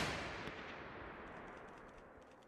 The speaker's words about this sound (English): And they start shooting.